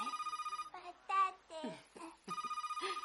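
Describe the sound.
Kitchen telephone ringing with a rapid, pulsing electronic trill, heard at the start and again near the end, with a voice speaking in between; faint overall.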